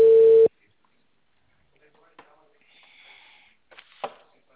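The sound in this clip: A short steady telephone tone sounds as a phone call is being dialed: one loud, mid-pitched beep lasting about half a second, followed by near silence with a few faint clicks and rustles.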